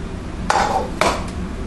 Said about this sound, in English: But I need a plate. We have to have something to put our omelet on. Here's a plate.